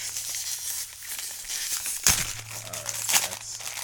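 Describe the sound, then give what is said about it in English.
Plastic packaging on a Mezco toy is crinkled and torn open: continuous crackly rustling broken by two sharp, loud rips. “So let's open this. Let me see if I can find a rip tab for it or something. It doesn't have one.”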